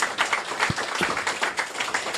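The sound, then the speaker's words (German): Audience applause after a presentation at a youth hackathon, a dense, steady patter of many hands clapping with a few sharper individual claps throughout. “Danke fürs Zuhören. Wenn ihr noch Fragen habt, könnt ihr die uns beim Apero stellen. Großer Applaus.”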